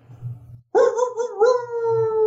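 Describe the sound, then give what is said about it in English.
A howl sound effect for a legendary Ozark creature: one long, loud, steady tonal howl after a short low rumble and a brief hush. The pitch dips slightly midway, then holds to the end. “Get that howl in there.”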